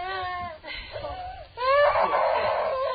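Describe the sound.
A child crying, with high wavering wails that swell into a louder, sustained sobbing cry over a low, murmuring background.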